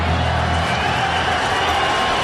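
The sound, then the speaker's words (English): Brewers fans cheering in the crowd at Coors Field during a baseball game, a dense, steady roar of crowd noise that stays at an even loudness throughout. “And the noise you hear, Brewers fans littered throughout Coors Field.”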